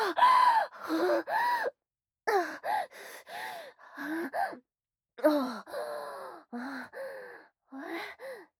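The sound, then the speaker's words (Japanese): A middle-aged man panting, out of breath: many short, voiced gasps and breathy moans in an uneven, rapid rhythm, fairly loud and without other sounds. “ああ、さてはおっさん息切れか。”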